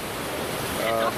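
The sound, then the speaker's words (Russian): Ocean waves surging in, a steady broad wash of surf noise over about a second that swells slightly louder toward the end. “Очень вдохновляющая картина, вот эти волны, как их океан гонит.”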